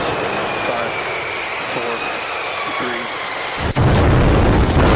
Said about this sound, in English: That noise represented twice the thrust of the rocket that sent men to the moon.